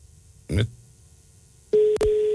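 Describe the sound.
Telephone tone after dialling a wrong number: a short burst, a pause, then a loud, steady single-pitched electronic tone with one brief break.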